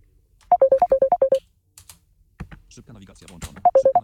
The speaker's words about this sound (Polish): nie jestem w stanie odebrać połączenia od Wojtka